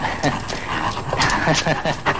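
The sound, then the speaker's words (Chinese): A dog whimpers and yips repeatedly in a dramatized scene set in colonial times. Its short, whiny cries are mixed in with people talking. “对不起，那条狗。”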